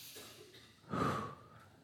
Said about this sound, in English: everyone take a deep breath right now